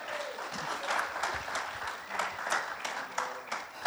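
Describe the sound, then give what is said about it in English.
Audience applause fills a church: many hands clapping in a dense, steady patter that stays at an even, moderate loudness throughout, with small swells but no break. “So give yourselves a hand for being here today.”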